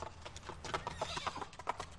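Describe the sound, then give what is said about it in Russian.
Horses' hooves clop on a road as riders travel along it. The beats are steady and rhythmic, many of them, at a moderate level with no pauses. “Завернули молодцы коней и поехали по дороге к Киеву.”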